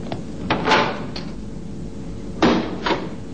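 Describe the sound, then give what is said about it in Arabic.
A prison cell door being opened, a few dull clunks and scraping knocks of heavy hardware over a steady background hiss. “أيها الحارس، افتح الزنزانة.”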